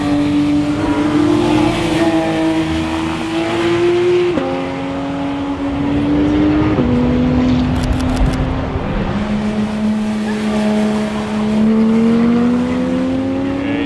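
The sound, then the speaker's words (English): A Porsche sports car accelerates hard on a track during a driving experience. The loud engine roar climbs steadily in pitch, dips at two gear changes, then keeps rising, with no talk over it. “We're here at the Porsche driving experience.”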